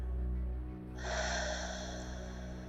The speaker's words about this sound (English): Now breathe out.